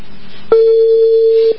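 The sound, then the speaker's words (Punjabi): Ringing tone of an outgoing phone call: a single steady, loud, low tone lasts about one second against faint background noise. “ਵਾਹ ਭਾਈ ring ਹੋ ਰਹੀ ਹੈ।”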